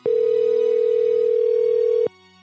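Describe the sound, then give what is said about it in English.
A telephone tone sounds as a call is placed back to a number: one steady, sustained beep lasting about two seconds, then it cuts off, leaving a faint hum. “Do you want to call him back? I'll call him back for you.”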